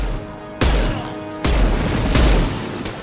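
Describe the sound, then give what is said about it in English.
Pistol shots in a video game, a few loud booming reports, each striking abruptly and leaving a sustained rumbling tail before the next one. “Wow, this pistol really packs a punch.”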